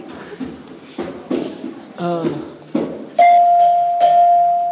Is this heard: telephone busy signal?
no